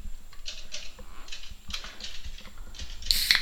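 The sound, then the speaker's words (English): Typing on a keyboard: an irregular patter of many light mechanical clicks and taps, ending in a brighter, louder burst of clatter. “Look at him typing.”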